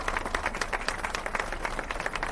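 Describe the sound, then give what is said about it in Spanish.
Applause for a carnival queen and a group of older women at a seniors' club association fair, made of many crisp hand claps at a fairly even pace, moderately quiet and without voices. “aplauso para estas mujeres, la reina del carnaval.”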